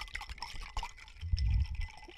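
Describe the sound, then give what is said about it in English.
A drink being stirred: faint light clinks and soft liquid swishes, brief and quiet. “Oh, while I'm stirring here.”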